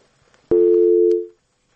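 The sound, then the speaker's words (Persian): A single telephone tone heard after a caller's line was cut off: one steady, loud, even burst that holds for under a second, then stops into silence, with no voices. “بله یک تماس قطع شد.”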